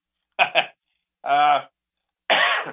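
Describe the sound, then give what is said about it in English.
Coughing from sinusitis during heavy pollen in Middle Tennessee: three separate harsh, throaty bursts separated by short silences, the first one doubled. No talk is heard. “excuse me. Sinusitis. It's a lot of pollen going on down here in Middle Tennessee, so excuse me for coughing.”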